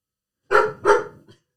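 A dog barking: two sharp, loud barks in quick succession, followed by a brief faint yelp, with silence around them.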